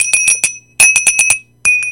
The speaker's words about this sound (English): Remember when the phone had a bell?